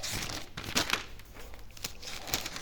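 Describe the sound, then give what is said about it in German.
Paper pages are leafed through by hand, giving a few crisp crinkles and flicks over a soft, continuous rustle, with no talking. “jetzt muss ich selber wieder runterblättern.”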